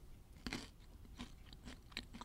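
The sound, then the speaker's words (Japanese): Faint crisp crunches of someone biting into and chewing a curry-flavoured whole-cricket snack, a few sharp irregular bites with quiet gaps between them and no talking. “めっちゃコオロギ。あの、目も合うね、これ。なんか、切ない気持ちになりますけども、ちょっと行ってみます。じゃあ食べてみますね。”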